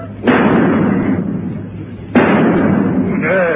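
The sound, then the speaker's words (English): Two gunshots fired at a fly crawling up a wall, each a loud, sharp crack followed by a long, rumbling decay, spaced about two seconds apart. “Say, just to show you what kind of a shot I am, you see that fly crawling up the wall there?”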